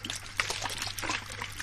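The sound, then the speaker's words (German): A small trickle of water running along a riverbed, a light, continuous bubbling dribble with quick, uneven splashes throughout. “Oh, das ist jetzt, das ist ein Rinnsal, ne? Ist ja noch nicht so aufregend.”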